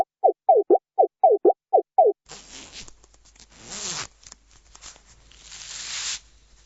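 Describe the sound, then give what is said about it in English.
A waiter unzips his jacket: eight quick rasping zipper strokes in a steady rhythm, followed by louder, irregular rustling and scraping of fabric. “What you are hearing is the waiter opening his jacket and showing his fur to his clients.”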